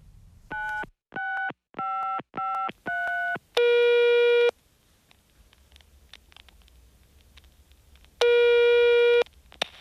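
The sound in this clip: Telephone tones from a call being placed: five short, even beeps in quick succession, then a longer, louder tone, a stretch of near silence, and a second long tone. Clean electronic pitches with no voices.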